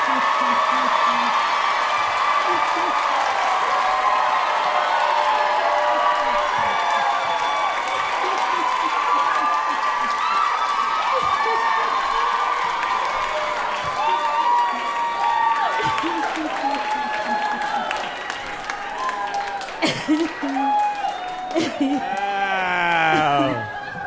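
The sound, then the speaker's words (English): Sustained audience applause and cheering with scattered whoops, a dense, loud wash of clapping that holds steady for a long stretch while a voice talks over it. “Please give it up for George St. Giegler and Gil Faison!”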